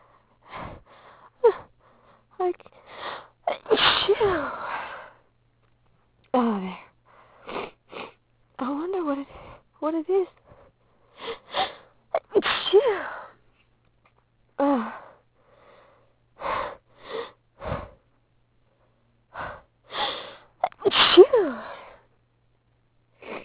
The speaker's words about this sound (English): I don't know why I'm sneezing so much.